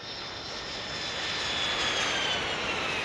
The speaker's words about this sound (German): Wir fliegen nach Mosambik in den Südosten von Afrika.